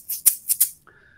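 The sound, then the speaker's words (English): An egg shaker played in a song gives four quick, bright rattling strokes, followed by a faint sustained tone. “Our old friend, the Egg Shaker, is back on this song.”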